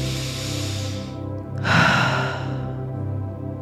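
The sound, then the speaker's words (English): Slow, airy breathing, drawn in through the nose and let out through the mouth, in two long breaths over a steady low held tone. “And going right into whatever breath pattern feels good for you. It can be that continual in through the nose and out through the mouth.”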